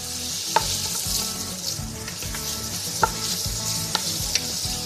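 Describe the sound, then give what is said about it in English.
Garlic and onion sauté in olive oil in a pan over medium heat, giving a steady, bright sizzle and crackle. A few sharp taps from stirring stand out against the continuous frying. “Okay, let's put this over medium heat and start to saute that garlic and onion.”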